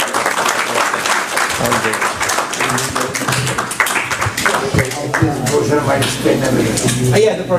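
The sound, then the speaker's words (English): Audience applause after a lecture, a dense, loud patter of many hands clapping steadily throughout, with some voices mixed in. “Round of applause for Steve Stone.”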